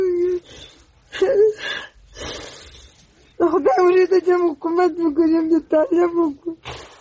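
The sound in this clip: A 47-year-old woman in Uruzgan, Afghanistan, whose two sons were killed, cries in broken bursts of wailing and whimpering, with gasping breaths and short pauses, growing longer and more sustained toward the end.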